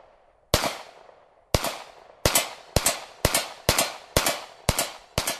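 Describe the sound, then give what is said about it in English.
Nine sharp gunshots from a handgun during target practice in the woods, fired at a steel plate. The first two come well apart, then the rest follow in a quicker, steady rhythm, each crack decaying briefly. “he plants his feet, focuses on a steel plate about 50 feet in front of him, and fires.”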